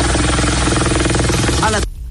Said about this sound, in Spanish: Ahí se ve el helicóptero. Va bajando, tratando de acuatizar.